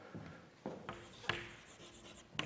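Writing on a board produces a few scratchy strokes and taps, faint and irregular, with short pauses between them.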